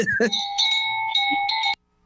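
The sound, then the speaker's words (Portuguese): An annoying bell rings with a bright, sustained metallic tone that holds steady for under two seconds, with a few short accents near the start, then cuts off abruptly into silence. “Para com esse sino chato que tá me irritando.”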